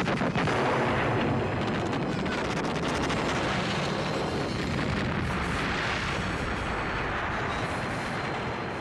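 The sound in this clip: Artillery cannon fire rolls through a film battle scene as French infantry advances, a continuous dense roar of rumbling blasts that stays loud and unbroken throughout.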